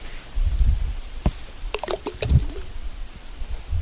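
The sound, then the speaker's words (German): Ripe plums drop from a tree on the bank into lake water as a boat sits beneath it, giving a few soft, scattered plops and splashes with faint watery gurgling between them. “Man fährt mit dem Boot jetzt unter diesen Baum, der direkt an der Böschung wächst, und kann ihn dann so reinplumpsen lassen. Das ist diese Plumpstechnik. Die hört sich so an.”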